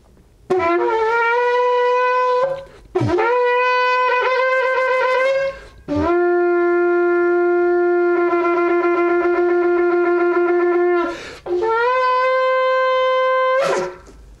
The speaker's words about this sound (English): This is the shofar, Sid, that I actually sounded on that day to the World Trade Center from the Statue of Liberty. I'm going to sound it, and then we're going to pray together.